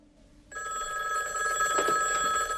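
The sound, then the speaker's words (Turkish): A telephone rings, its bright, steady electronic trill starting abruptly after a brief quiet moment and continuing unbroken at a fairly low level. “Telefon çok çaldı.”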